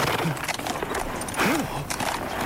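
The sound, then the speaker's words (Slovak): Clopping hooves of a stallion in an audio drama, a steady run of hoof strikes at moderate loudness. “Žrebec klesol na jedno koleno.”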